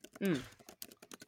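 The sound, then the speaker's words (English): Keys punched on a computer keyboard covered in baking flour: a brief voiced sound opens, then a quiet run of sharp, irregular clicks and taps. “Including this keyboard that I felt the need to punch a couple times right now.”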